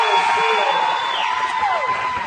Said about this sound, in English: As the Scotland County fans all rise to their feet to applaud their team's trip to the district championship.